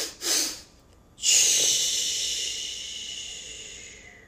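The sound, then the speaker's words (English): A person takes a quick deep breath in, then blows out in a long, steady hissing exhale that slowly fades over about three seconds, with no talking. “So you take 2 breaths in. The second breath, you kind of take a deep breath in and then blow out. So it goes like this.”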